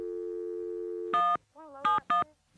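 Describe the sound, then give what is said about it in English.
Telephone line tones sound while a phone line is opened: a long, steady, even tone, then several short, harsh, buzzing beeps separated by gaps and a brief warbling tone. “And I'm going to hang up, too. Thanks. Okay. Well, if I can get a line open. There we go.”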